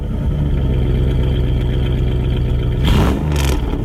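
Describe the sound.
A gasoline car engine runs at a steady, loud idle with a low, even drone and rumble. Near the end, a couple of brief hissy bursts cut through the constant hum.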